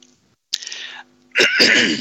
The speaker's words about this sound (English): Excuse me, I seem to have something in my throat, but I'll see if I can assuage that.